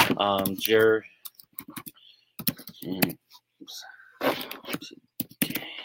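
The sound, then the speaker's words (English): Typing on a computer keyboard: quick, irregular key clicks in short bursts between and under a person's speech. “oops, I can't type right now.”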